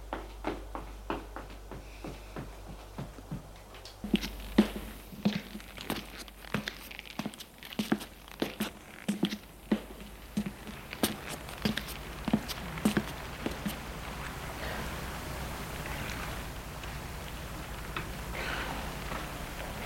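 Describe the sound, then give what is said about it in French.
Hurried footsteps going down a staircase, many quick, uneven thuds tumbling one after another, thinning out toward the end into a low, steady rustle. “Et il descend les escaliers en vitesse.”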